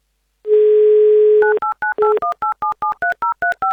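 Telephone touch-tone dialing as a radio contest host rings a listener: a steady dial tone for about a second, then a quick, even run of around a dozen short key beeps, each pair of tones shifting in pitch.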